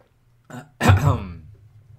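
A single harsh throat clearing bursts out loudly after a softer lead-in, then fades over about a second.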